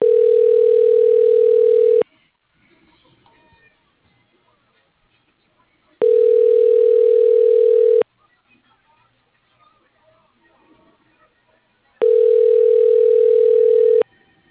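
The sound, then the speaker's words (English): Telephone ringback tone plays while a call is transferred to an office extension: three long, steady, loud tone bursts, evenly spaced with longer quiet gaps between them. “Thank you for calling. Please hold while I transfer your call.”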